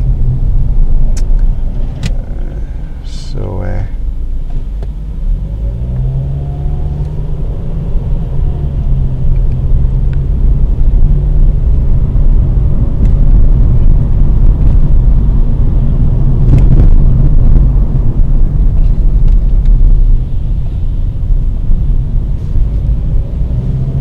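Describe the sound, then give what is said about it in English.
A Ford Focus with 54,000 miles on the clock drives along on the way to work. Its engine and road noise make a steady, loud, low rumble that carries on without a break, with a few faint higher ticks early on and no talk. “This Ford Focus has done 54,000 miles. It's been good so far.”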